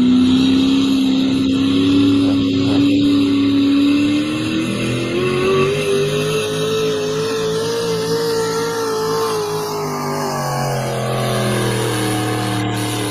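A race car engine revs hard through a slightly missed gear shift, a loud, sustained, buzzing engine tone that climbs in pitch partway through, holds, then drops back near the end, with no voices.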